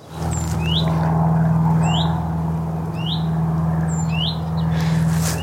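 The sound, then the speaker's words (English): Calls of a willow warbler or chiffchaff: a few short, thin whistled notes, each sliding upward, repeated at even intervals over a steady low hum. “that it was either a willow warbler or a chiff-chaff. But anyway, that sound was its call. Here's a reminder of the call.”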